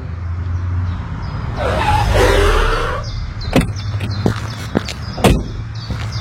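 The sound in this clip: A car drives off, its engine swelling into a rising whoosh for about a second and a half before fading, followed by several sharp knocks and thumps.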